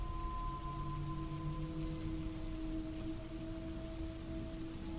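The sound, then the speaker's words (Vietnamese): Steady light rain falls outdoors, a continuous even patter and hiss that holds at the same level throughout, with no voices. “Ngoài trời vẫn mưa rả rích kèm theo sấm chớp.”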